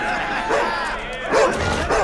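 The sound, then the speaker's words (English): A German shepherd held on a rope in a dog-fighting ring barks twice, in strained, mid-pitched barks about a second apart, under talk and background murmur. “Betting stops, and the bookie enters the ring where a dog owner holds a German shepherd on a rope.”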